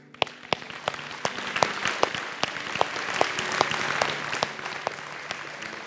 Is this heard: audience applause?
yes

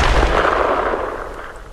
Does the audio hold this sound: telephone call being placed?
no

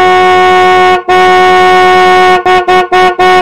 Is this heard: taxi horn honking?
yes

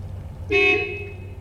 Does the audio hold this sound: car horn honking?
yes

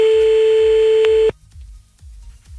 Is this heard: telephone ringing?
yes

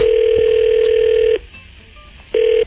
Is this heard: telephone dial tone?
yes

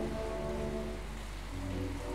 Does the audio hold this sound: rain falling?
yes

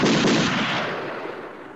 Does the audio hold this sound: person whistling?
no

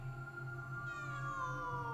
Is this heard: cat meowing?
yes

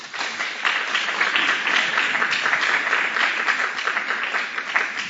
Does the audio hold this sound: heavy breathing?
no

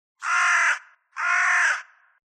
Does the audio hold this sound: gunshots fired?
no

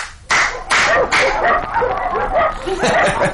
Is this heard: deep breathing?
no

